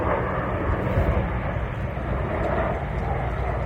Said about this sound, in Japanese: 今はですね、シドニーの入江から、あ、今ね、飛行機通ってるんですよ。